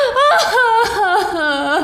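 A tipsy woman whimpers and cries in wavering, high-pitched sobbing tones, voiced almost continuously through the short moment without any clear words.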